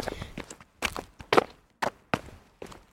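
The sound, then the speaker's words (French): Faint footsteps walking through corridors and stairs, a string of soft, uneven thuds and scuffs at a moderate walking pace, with no voices. “Après être passé par de nombreux couloirs et escaliers, ils virent de la lumière et retrouvèrent enfin Antoine.”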